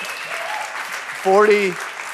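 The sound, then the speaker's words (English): A church audience applauds and cheers as a steady wash of clapping that runs throughout, with a brief voice cutting through near the middle. “You can cheer for that if you want.”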